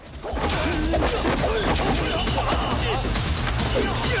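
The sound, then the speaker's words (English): Carved dragon heads knocked off a row of crates crash and clatter during a chase in a fight scene, a dense unbroken jumble of impacts mixed with voices. “The other guys come at him, and the dragon heads are toppled in the chase.”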